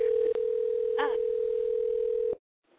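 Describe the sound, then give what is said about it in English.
Steady telephone tone while a number is being dialed, a single sustained low hum that holds evenly, dips briefly once, then cuts off abruptly near the end. “Hopefully I'm dialing the right number. It's dialing now. Dialing.”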